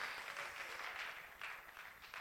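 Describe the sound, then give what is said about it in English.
Church audience clapping, a soft, brief burst of many hands with gentle swells in intensity, faint and continuous without voices over it. “I think it's worthy of a round of applause for God's work, heart, and life.”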